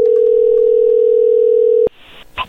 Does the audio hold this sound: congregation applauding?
no

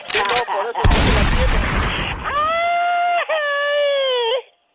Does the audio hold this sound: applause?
no

